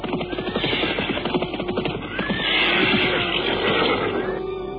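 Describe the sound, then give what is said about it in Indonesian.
Horses ridden on through the night, with rapid, rhythmic hoof-like thuds in the first half giving way to a louder, denser, sustained rumbling stretch. “Malamnya mereka tidak berhenti, melainkan terus berkuda.”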